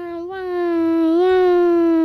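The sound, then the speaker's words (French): A little girl wails like a baby, a single sustained high whining cry that swells in loudness at the start and holds steady for about two seconds. “Tous les jouets regardent la petite fille qui est en train de taper du poing contre le sol, en hurlant et en pleurnichant comme un bébé.”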